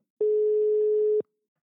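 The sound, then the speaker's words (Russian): A telephone tone sounds while a call is being placed. One steady, mid-pitched electronic tone lasts about a second, then stops, with nothing else heard. “Давайте попробуем позвонить и сделаем это прямо сейчас.”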